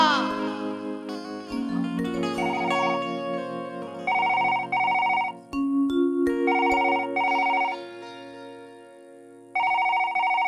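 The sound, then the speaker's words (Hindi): A mobile phone rings while a call is being placed: a melodic tune, then three groups of loud pulsing tone bursts separated by short pauses. “आ सोचतिया कि अब तनी राजा जी लगे try करी कि धरत कि नहीं धर”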